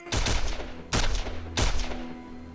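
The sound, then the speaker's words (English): Three loud rifle shots fired from a windowsill, evenly spaced, each a sharp crack followed by a short, ringing decay. “Hussein props the rifle on the windowsill and fires madly.”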